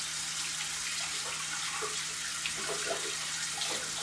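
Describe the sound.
Tap water runs steadily while Uniqlo underpants, slightly soiled, are washed by hand under it. The flow makes a continuous hiss with faint splashes and sloshes on top.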